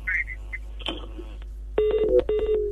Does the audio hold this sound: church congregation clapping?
no